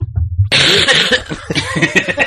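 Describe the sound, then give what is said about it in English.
A single sharp cough bursts out after a low murmur, followed by breathy chuckling and a few softer throaty sounds. “You can cough.”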